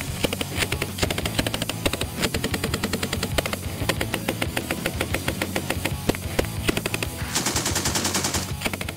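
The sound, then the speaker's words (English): Real gunfire recorded by video game developers shooting with the army: many rapid automatic shots in long, sustained bursts, loud and dense over a steady mechanical drone. “Here's a clip from YouTube of the game developers spending a day shooting guns to collect audio along with the army.”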